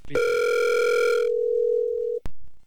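A telephone ringback tone sounds on an unanswered call: a single long, steady electronic tone that starts bright and buzzy, then thins to a pure hum before a sharp click cuts it off.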